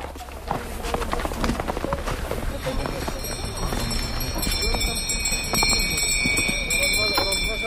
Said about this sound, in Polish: Tak jest, pierwsze konie przed nami, sanie pociągnęły.